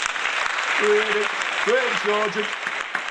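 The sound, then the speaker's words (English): A studio audience chants a footballer's name, a dense, noisy crowd roar with a single voice standing out above it for a moment. “Freddie Sargent. Oh, dear. We can't have chanting like that from the audience.”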